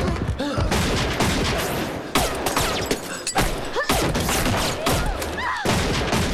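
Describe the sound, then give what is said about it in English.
A volley of gunfire in a tense standoff, many sharp, loud bangs and heavy thuds crowding together over several seconds with little pause between shots. “Everyone apart from Sam is shot down.”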